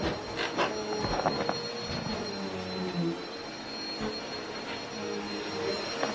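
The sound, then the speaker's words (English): Someone is vacuuming: a vacuum cleaner motor runs as a steady, fairly faint drone with a thin whine on top, holding even for the whole stretch. “These stairs are steep and they are narrow, and I can hear somebody vacuuming.”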